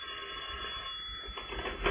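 A telephone rings in a radio drama, a bright, band-limited bell ring that sounds steadily and swells slightly at the end, with no talk over it.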